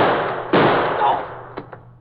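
A gas-gun shot in a dramatized crime scene: one sharp, loud crack with a long, noisy decaying tail, followed by a couple of fainter thumps.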